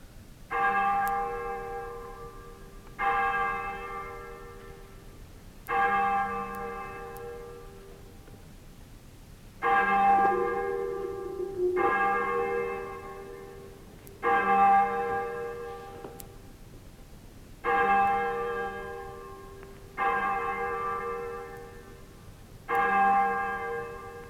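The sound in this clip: Church bells toll the nine tailors death knell: nine slow, resonant strokes, each ringing out and fading before the next, spaced a few seconds apart, with no voices.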